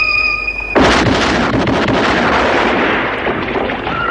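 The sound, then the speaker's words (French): A single loud gunshot from a Colt 1851 Navy cylinder revolver in a western film: a sharp blast followed by a long, noisy ringing decay, with faint sustained musical tones before the shot. “du son de son Colt 1851 Navy. Une arme à barillet mythique qui apparaît dans de nombreux westerns spaghetti.”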